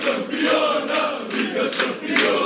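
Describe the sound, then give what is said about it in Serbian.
Several hundred Red Star Belgrade football fans celebrate at Nikola Tesla airport after their club qualified for the Champions League, a dense continuous roar of many cheering and chanting voices with a few louder surges. “Slavlje sa beogradskih ulica povodom plasmana Crvene zvezde u Ligu šampiona danas se premestilo na aerodrom Nikola Tesla, gde je više stotina navijača dočekalo šampiona Srbije.”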